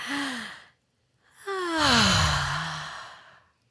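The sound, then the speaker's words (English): A deep breath drawn in and slowly let out: a short breath, a brief pause, then a long voiced sigh that falls in pitch and fades away. No speech. “This is your reminder number two to take a deep breath.”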